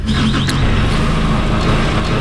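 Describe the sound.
A forklift's engine starts and runs as it lifts a pallet of barley onto a truck. The rumble is loud and steady throughout, with no distinct separate events.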